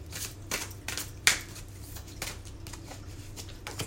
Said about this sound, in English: So I'm going to pull a card for this lunar activity.